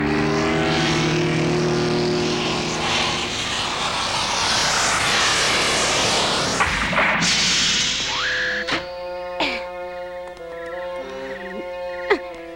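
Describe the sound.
A small aircraft comes in to land. A loud, steady engine drone dominates the first half, then shifts and thins out, giving way to whirring tones punctuated by several sharp clicks.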